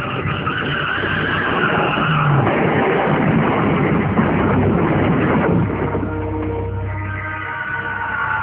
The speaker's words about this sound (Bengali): দীপু কোনো মতে স্টিয়ারিংটা বামে মুচুক দিল, প্রাণপণ শক্তি দিয়ে গাড়িটা আওয়াজ তুলে রাস্তার একেবারে কিনারে চলে এলো, তারপর বিকট আওয়াজ তুলে ব্রেক কষে দাঁড়ালো গাড়িটা।